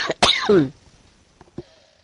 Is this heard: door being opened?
no